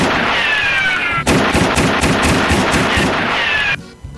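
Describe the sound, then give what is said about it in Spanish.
Pistol fire in a video game, a fast burst of many sharp cracks repeating for about two and a half seconds over a constant game noise bed, ending abruptly. “se te arrancó la pistola, güey”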